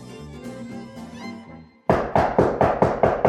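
Knocking on a door: a steady series of loud, sharp knocks in an even rhythm, coming straight after a stretch of soft music.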